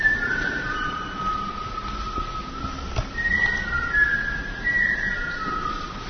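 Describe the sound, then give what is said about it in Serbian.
A woman whistles during a silent solo experimental street performance. Several sustained, steady high tones rise out of a continuous background hum and shift slightly in pitch. “Inače, ovo njen solo eksperiment u tišini, koju je povremeno narušavala zvižducima.”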